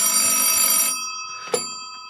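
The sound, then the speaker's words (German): A telephone rings with an incoming call: one bright, buzzing ring lasts just under a second, followed by a short pause and a single sharp click. “Oh je, da sind sie. Wir werden angerufen.”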